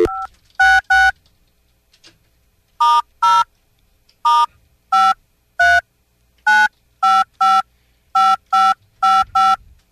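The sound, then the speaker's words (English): Telephone keypad tones from dialing an international number on a hotel phone: a series of about a dozen crisp, loud, evenly pitched beeps in irregular clusters, separated by short silent gaps. “How do I dial? I got to dial 011, right?”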